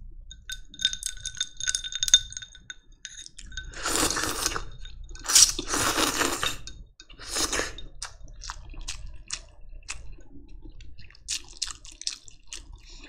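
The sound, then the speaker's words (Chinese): Pumpkin-flavoured instant noodles being eaten, with a few loud bursts of slurping in the middle and smaller wet squishing, chewing and clinking sounds around them, and no one talking. “我该说这是我听说最好听的吃面吗？”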